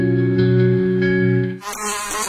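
A fly buzzes loudly and steadily for about one and a half seconds, its droning pitch wavering slightly, before the buzz cuts off and gives way to a different, noisier sound.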